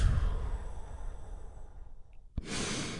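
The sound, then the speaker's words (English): A deep healing breath: a low, airy breathing sound that tails off, then a brief click and a fresh hissing intake of air. “Join me in taking a big, deep healing breath right now. Here we go. And... and relax.”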